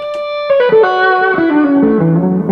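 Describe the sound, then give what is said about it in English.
Distorted electric guitar from a 1952 Telecaster played through an amp, a few loud, sustained, harmonically rich notes ringing over one another and stepping lower in pitch, with no talking. “So can we hear the amp distortion, or is that is that crazy loud or something?”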